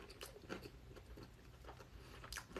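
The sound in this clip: Biting and chewing of a naan bread pizza: many soft, crunchy bites and chomps in an uneven rhythm, faint, with no talk.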